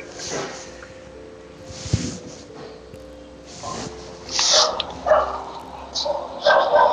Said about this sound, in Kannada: ಯಾರೋ ನಾಯಿ ಬಿಡ್ತಾ ಇದಾರೆ